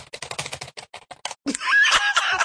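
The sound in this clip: Typing on computer keyboards: a quick, irregular flurry of crisp key clicks, followed by a louder, denser burst of sound.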